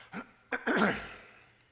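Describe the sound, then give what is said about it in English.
A man pauses mid-talk to catch his breath: a few short breathy bursts, then a longer rough throat-clearing gasp that fades into quiet. “Excuse me while I catch my breath for a second.”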